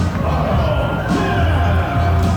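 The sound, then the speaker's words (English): Crowd noise fills a baseball stadium during a Thursday night game, a steady, full murmur of fans with light cheering and a voice talking over it. “It's not a bad crowd for a Thursday night.”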